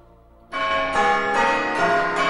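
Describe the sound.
A small bell rings at Christmas, sounding a few bright, sustained metallic tones that overlap after a quiet start.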